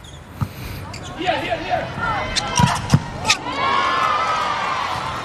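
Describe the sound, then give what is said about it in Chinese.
A volleyball serve by Turkey's setter in a Turkey vs Poland match. Several sharp ball impacts stand out over a constant crowd hubbub. “现在发球的是二传手沙欣。”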